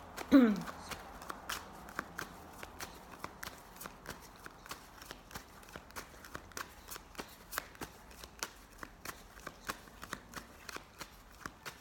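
A tarot deck being shuffled during a tarot and oracle reading, with many crisp, evenly spaced card snaps and riffles that run faintly through the whole clip after a slightly louder opening rustle.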